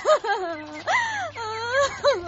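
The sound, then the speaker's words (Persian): A person cries in loud, wailing, moaning bursts whose pitch rises and falls within each sob. There are several drawn-out voiced cries separated by short breaks. “خودگه تو چرا گریه میکنی؟”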